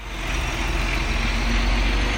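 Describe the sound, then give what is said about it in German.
A nearly 17-metre truck tractor hauling a white container drives slowly through a Kenyan village past wooden and corrugated-metal stalls, giving a steady, low engine rumble with broad noise that holds an even level throughout. No one speaks. “Ein knapp 17 Meter langer LKW kurft vorsichtig durch ein kenianisches Dorf, vorbei an provisorischen Verkaufsständen aus Holz und Wellblech.”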